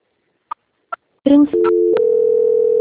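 Telephone tones during a call transfer: two short key beeps, then a steady, continuous tone that holds to the end.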